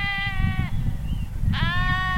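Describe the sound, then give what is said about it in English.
Sheep bleating in a flock of nearly a thousand grazing on dry meadow grass in a high mountain valley of southwestern Colorado: two loud, drawn-out, buzzy bleats separated by a short gap, over a continuous low rumbling background. “Nearly 1,000 sheep chew on the dry grass of a meadow under the early afternoon sun.”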